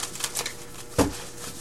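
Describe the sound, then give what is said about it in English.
Tarot cards being shuffled and drawn, a few soft papery flicks followed by one sharper slap near the end, quiet and without talk. “let's go ahead and get additional cards and see what comes up.”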